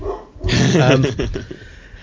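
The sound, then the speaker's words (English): A dog barks in one loud, rough, drawn-out burst lasting about a second, with a growling edge, then trails off into fainter noise. “I think my dog's taking exception to that somehow.”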